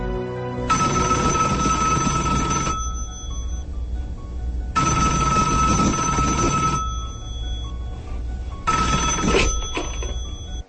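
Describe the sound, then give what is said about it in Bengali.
A telephone rings three times, each a loud trilling burst of about two seconds separated by pauses, with no talk. “তিনবার ring বাজতেই কে যেন ফোনটা উঠাল।”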